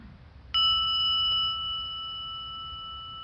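A meditation bell is struck once during a meditation exercise, producing a bright, clear ring that sustains for several seconds with steady, pure tones and fades only slowly.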